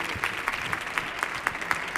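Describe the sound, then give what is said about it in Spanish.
An audience applauds in dense, continuous clapping that pulses in an even rhythm of louder beats, roughly four per second, as if many hands fall into time together. “Otro aplauso para Magui de Cabi y para Chema Tagua, claro.”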